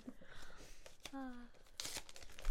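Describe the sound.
Wrapping paper being torn open on a Christmas gift: soft crinkling, then a short, sharp ripping burst near the end, with people talking.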